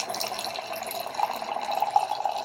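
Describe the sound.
Wine pours in a steady stream into a crystal carafe, making a continuous, even splashing gurgle of moderate loudness with small bright bubbling peaks. No one speaks.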